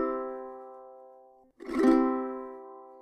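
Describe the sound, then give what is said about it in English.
Ukulele roll strum with the fingers fanning out in quick succession: a sustained chord fades away, then a rapid rattling cascade of overlapping strokes blooms into a fresh ringing chord that slowly decays. “So hopefully you can hear that the strums are coming directly after each other. So before your little finger has finished strumming, your next finger's hitting, and then your next finger's hitting, and then your next finger's hitting. And it starts to sound like this really extended strum.”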